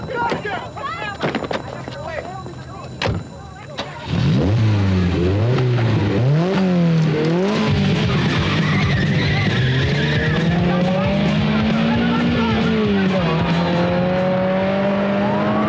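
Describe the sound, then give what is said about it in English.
A Ferrari peels out in a 1987 film scene after a tape is turned up loud. A few seconds of music give way to a loud engine revving in repeated rising sweeps, with tire squeal and a sustained roar to the end. “Jumps into a waiting Ferrari, sticks a tape in, turns up the volume and peels out.”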